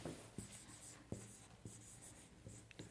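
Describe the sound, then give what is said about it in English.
Someone erasing a board, with a few scraping strokes separated by short pauses that sound like light taps over a faint steady background. “I need somebody up here to erase the board for me.”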